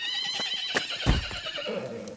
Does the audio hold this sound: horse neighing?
yes